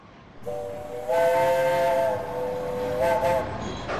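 A train whistle on a Bavarian provincial railway: a long, steady, high blast with a hissing edge, followed after a pause by one short blast.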